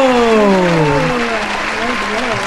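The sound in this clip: Studio-audience applause sound effect triggered from a button, a steady wash of clapping running beneath a talking voice.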